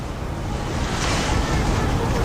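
Ocean waves wash continuously onto a seaside shore, a dense, steady roar of surf with wind blowing across it and no distinct individual breakers.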